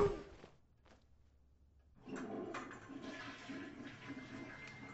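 A toilet flushes in a night scene of an audio drama. A brief faint clunk comes first, then after a short quiet pause a steady rushing of water runs on to the end.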